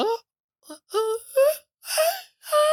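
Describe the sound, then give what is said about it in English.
A human voice wails in imitation of a mermaid giving birth. It comes as a series of short, eerie moaning cries with sliding pitch and brief silent gaps, rising in loudness toward the final cries. “and apparently it was to imitate a mermaid giving birth.”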